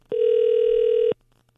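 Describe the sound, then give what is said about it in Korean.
Ringback tone of an outgoing telephone call: one steady, mid-pitched buzzing tone lasting about a second, fairly loud, then quiet. “자, 신호 갑니다. 자, 오늘 마지막 통화 될 것 같아요. 자, 신호 가고 있습니다.”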